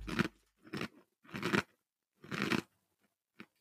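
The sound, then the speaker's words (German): Crunchy chewing of a cookie comes in several short, faint, dry crunch bursts separated by brief pauses, with no talk. “Und der Keks ist allerdings gut. Ja, der schmeckt wirklich lecker.”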